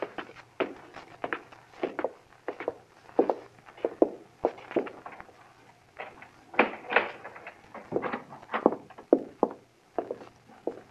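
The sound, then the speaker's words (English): Footsteps climb dark, narrow stairs at 221B Baker Street, a radio drama sound effect. Many quiet, uneven thuds and taps follow one another over several seconds, with no speech. “We went up the dark, narrow stairs.”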